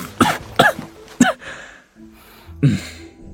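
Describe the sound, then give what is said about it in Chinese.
Coughing from someone choking on a mouthful of soy milk: four sharp, throaty bursts, three close together and one after a short pause, with quiet breathing between them. “白玉堂被入口的豆浆呛得直咳嗽”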